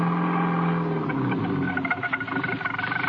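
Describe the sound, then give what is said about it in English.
A car driving slowly through fog, its engine a steady, fairly loud rumble that turns slightly rougher and more pulsing toward the end. “was crawling his way through the fog. He was driving more by instinct than anything else.”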